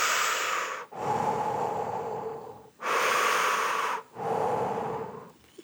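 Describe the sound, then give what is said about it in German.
Continuous breathing in and out with no pauses: a steady, airy hiss made of a few long breaths that run straight into one another, with only brief dips between them and no talking. “für mich ist das ein, ein und Ausatmen ohne Pause.”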